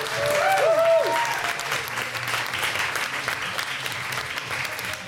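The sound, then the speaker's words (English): Festival audience at Imperial Festival applauding the guests, with a couple of high whoops over loud clapping at first, then the applause eases a little and carries on steadily. “Before we go, though, I'd love you to give a warm round of applause to our wonderful guests.”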